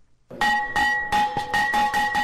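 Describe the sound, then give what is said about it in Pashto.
A school bell rung by hand at a ceremony opening the new school year in Afghanistan's cold regions, giving a run of rapid, repeated metallic strikes over a steady, bright ringing tone. “ولسمشر محمد اشرف غنی د شنبه په ورځ د ښوونځي د زنګ په کړنګولو سره د افغانستان په سړو سیمو کې د نوي تعلیمي کال پرانیسته وکړه”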